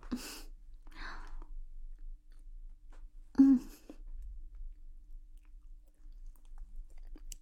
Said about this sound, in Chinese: 真好吃，包子配豆浆，简直绝绝子啊！